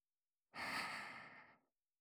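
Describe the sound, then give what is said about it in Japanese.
A single soft breath blown toward the listener, a quiet, airy puff lasting about a second that starts abruptly and then tapers off, with silence around it. “私の息を奥まで、ふうふう送り込んであげます。”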